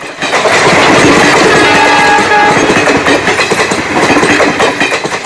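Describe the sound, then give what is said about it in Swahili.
Train engine and rails clacking: a loud, steady mechanical rumble carries a fast rhythmic clickety-clack of wheels over rail joints throughout, with no voices. “Balobi alivutiwa na sauti ya injini ya mashine ya treni na matalume ya reli jinsi yanavyosigana”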